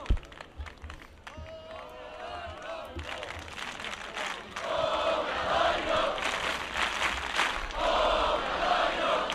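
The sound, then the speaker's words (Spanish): A crowd of basketball fans cheers and shouts as players address them from a balcony, celebrating Obradoiro's promotion. The dense crowd noise swells louder about halfway through and stays loud to the end. “Protagonista en esa balconada, donde se están dirigiendo a xogadores do Obradoiro, o público, os afeccionados congregados celebrando ese ascenso.”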